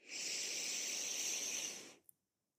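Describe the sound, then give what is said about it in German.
A deep breath in, drawn during a guided meditation, heard as one long, steady, breathy hiss that lasts about two seconds and then stops, with no talk over it. “Dann atme mit mir tief ein”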